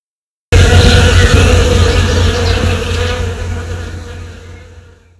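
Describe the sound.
Dense buzzing of bees and other insects under a blooming apple tree in Istria, a loud, steady hum that starts abruptly after a moment of silence and gradually fades toward the end.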